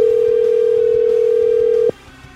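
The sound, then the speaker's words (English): A telephone dial tone: a steady, even-pitched hum that lasts about two seconds, then cuts off abruptly into near silence. “Now, let's dial the phone.”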